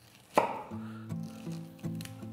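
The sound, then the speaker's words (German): A knife cuts the stalk out of a halved fennel bulb, making a few crisp chopping knocks, the first one the sharpest and loudest. “So, und dann nehme ich jetzt den Fenchel, den halbiere ich eben. So, da schneide ich jetzt hier unten so ein bisschen den Strunk raus.”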